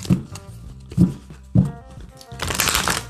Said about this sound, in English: We'll get you three cards from this deck.